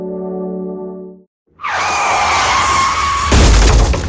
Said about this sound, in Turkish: Kaza sonrası doğru tespit, doğru sonuç demektir. Otomobil hasar tespit uzmanı